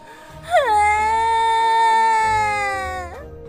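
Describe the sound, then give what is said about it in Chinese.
A voice imitates two young field mice crying, giving one long, loud wail that drops sharply at the start, holds a steady pitch, then tips upward as it breaks off. “小田鼠淘淘看了看哥哥，小田鼠闹闹看了看妹妹，他们俩都大哭了起来。”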